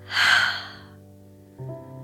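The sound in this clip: A slow, deep meditative breath sounds as one soft, airy rush of air lasting under a second. After a short quiet pause, calm sustained musical tones begin.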